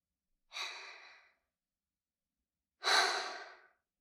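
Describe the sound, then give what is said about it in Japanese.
Two deep, paced breaths, each a breathy rush of air lasting under a second and fading out, separated by a couple of seconds of silence. “私に合わせて3回深呼吸して”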